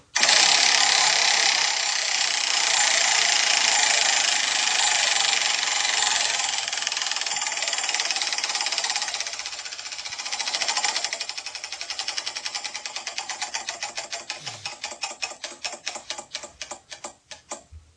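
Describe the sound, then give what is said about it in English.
A spinning question wheel clicks as it turns: a steady rush of dense ticking that gradually slows into many distinct, louder clicks spaced further and further apart as the wheel winds down. “I'm going to spin. Do it. Real hard.”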